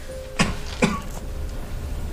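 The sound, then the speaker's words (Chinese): Two short coughs come close together in the first second, fairly faint over a low steady hum, followed by quiet. “咋还咳嗽上了？”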